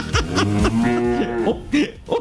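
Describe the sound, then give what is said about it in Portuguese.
A cow moos in a few drawn-out, tonal lowing calls whose pitch wavers up and down, loud and close together. “Um mugido, calma.”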